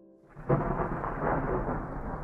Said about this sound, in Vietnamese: 1 giờ sáng, tiếng sấm rền vang trời.